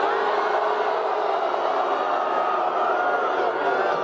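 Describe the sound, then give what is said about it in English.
A huge crowd of about 25,000 cheering at a Democratic 2020 presidential campaign rally, a steady, roaring wall of voices that stays level throughout. “And last weekend, they had the biggest rally so far of any Democrat in the 2020 race. 25,000 people. Listen. When I look at this huge crowd,”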